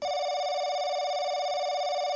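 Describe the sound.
A telephone ringing with an incoming call, heard as one unbroken buzzy electronic tone with rich overtones, steady and fairly loud throughout.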